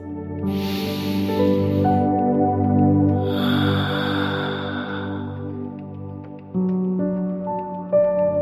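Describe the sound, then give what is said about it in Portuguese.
Slow, airy breath sounds from a guided breathing exercise, two long breaths rising over soft, sustained tonal music that drones underneath. “E vamos respirar juntos, juntas.”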